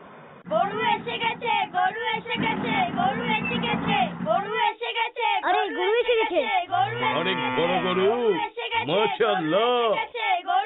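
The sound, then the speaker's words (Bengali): A cow chasing a man moos loudly several times amid a noisy commotion, its drawn-out calls overlapping excited talking and shouting voices throughout. “আরে এই গরুটা তো Usaid ভাইকে তাড়া করছে।”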